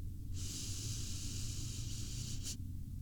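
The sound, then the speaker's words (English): One slow breath drawn in through the nose makes a soft, steady hiss lasting about two seconds, then stops abruptly. “Breathe, sweetie, okay? Nice and slowly. In through your nose.”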